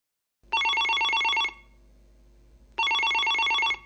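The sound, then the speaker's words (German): A telephone rings with an incoming call from a Munich company: two steady electronic ring bursts, each about a second long, separated by a short quiet pause, clear and alone. “Jetzt ruft dich die Firma an, um einen Vorstellungstermin zu vereinbaren.”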